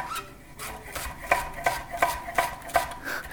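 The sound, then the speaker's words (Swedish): A knife chops through a yellow onion on a board, roughly cut, in a steady run of many crisp, even strikes. “Så, vi ska skära igenom den här löken lite. det behöver inte alls vara så fint.”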